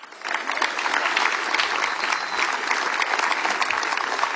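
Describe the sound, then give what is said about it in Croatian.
An audience applauds a singer at a chanson festival evening. Loud, dense, sustained clapping swells in quickly and holds at an even level throughout. “a zato ćete i vi nagraditi velim pljeskun”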